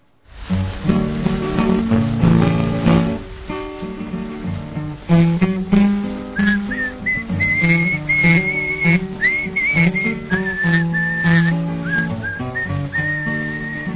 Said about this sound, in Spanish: vamos a escuchar la canción de fondo y quizás en un primer plano, pues el silbido